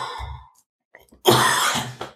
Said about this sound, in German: Weil ich muss noch mal husten.